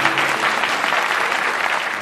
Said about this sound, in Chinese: 接下来，让我们掌声欢迎今天的讲述嘉宾——西游乐队，欢迎各位。